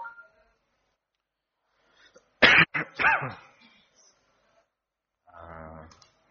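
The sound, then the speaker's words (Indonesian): A man coughs during a religious lecture, a tight cluster of harsh, raspy bursts in the middle of otherwise quiet surroundings. “Ala kulli hal ini saya batuk”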